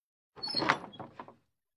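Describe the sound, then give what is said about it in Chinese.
A bedroom door is pulled shut in one quick motion, giving a faint, brief mechanical clatter lasting about a second before silence. “图南一把关上了房门，走进房间里，长长的叹了一口气。”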